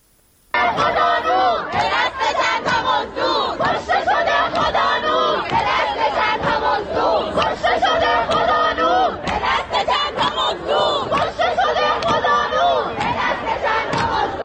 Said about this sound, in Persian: الان می تونیم صدای این شعارها رو بشنویم.